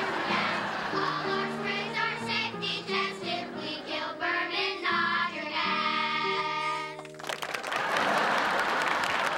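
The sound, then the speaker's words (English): Children applaud a piano player taking a bow. Several clear piano notes ring out first, then a burst of dense clapping breaks in near the end and carries on to the close. “The kids turn to Charlie and clap him. He gestures at them. Alan rolls his eyes. Charlie takes a bow.”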